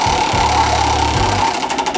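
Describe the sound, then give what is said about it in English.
A wheel is spun and runs with a fast, steady mechanical clicking and whirring, then a few distinct separate ticks near the end. “Let's spin the wheel and see where we're engineering today.”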